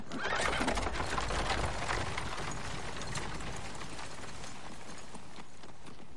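A horse-drawn carriage pulls away, with horse hooves clip-clopping over a steady rumble of wheels and movement that stays loud and even throughout.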